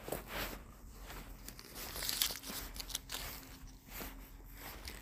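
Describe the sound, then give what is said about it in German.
Wrapper crinkling and crunching as a yogurt-filled chocolate bar is eaten, a few sharp crackles standing out over a steady rustling background. “sage ich jetzt zum sechsten Mal eigentlich, dass ich eine Joghurtrette esse. Ich habe noch zwei übrig, deshalb.”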